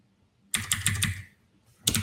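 Fingers type on a computer keyboard entering an OpenJDK command, a quick flurry of clicking keystrokes, a short pause, then a few more clicks.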